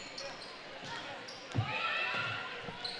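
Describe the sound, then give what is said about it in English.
A basketball is dribbled on a court during a women's game, a few soft bounces under steady commentary. “Swings it over with a dribble to the right corner.”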